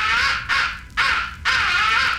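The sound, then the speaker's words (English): A crow roost call sounds as four long, harsh, rasping caws in close succession, loud and strident, each call dipping briefly before the next, with no voices. “fifth and final essential call is the roost call. It is a deadly call. Use it when you are in your roost or near your roost in the late evening and crows are coming in.”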